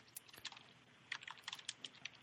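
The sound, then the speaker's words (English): Faint, rapid keyboard typing with quick irregular clicks in small bursts, a few sharper keystrokes standing out, and no voices. “now everyone's viciously typing”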